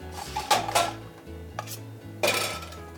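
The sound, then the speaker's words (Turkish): A frying pan is taken out and handled while cooking couscous risotto: a few metallic clanks and knocks of cookware, fairly soft, over a low hum, with no talk. “Bir tane tava alacağım”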